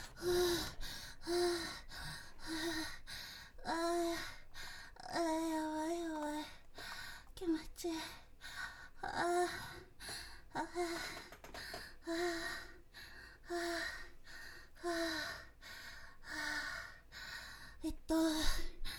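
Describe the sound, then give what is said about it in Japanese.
Heavy, rapid breathing as a person catches their breath: many gasping breaths in a quick, uneven rhythm, some of them voiced, with no words spoken. “ちょっとごめんね、息整えさせてください。”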